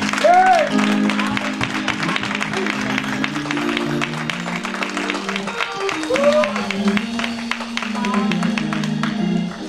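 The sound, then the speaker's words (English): A church audience applauds with sustained clapping, while voices shout and cheer over it throughout. “Come on, give God a hand.”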